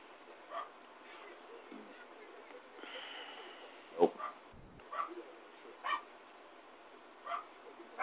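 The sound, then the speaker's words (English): A dog barks in short, irregular bursts, several separate yaps heard thin and muffled over a low background, with someone talking at times. “Shut up, dog.”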